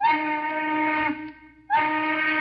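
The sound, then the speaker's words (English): Factory steam whistles atop smokestacks in Detroit's motor industry sound for the shift change: two long, shrill, steady blasts separated by a brief fading gap. “The whistles atop the gaunt, dark smokestacks shriek out their call to change shifts.”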